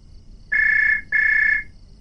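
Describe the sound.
A telephone rings twice in even, sustained electronic bursts of a bright, steady tone, separated by a short gap and followed by quiet.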